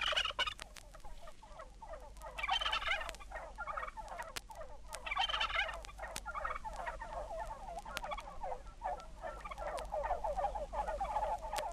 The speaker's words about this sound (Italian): lo starnazzare perplesso delle anatre, il singhiozzo dei tacchini,